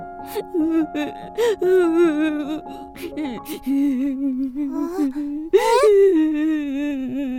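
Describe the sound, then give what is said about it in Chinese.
A girl sobs and wails in a children's audio drama, her high, wavering voice breaking into uneven bursts of crying with breathy catches over several seconds. “那边怎么有个女孩在哭？你怎么了？为什么要哭得这么伤心？”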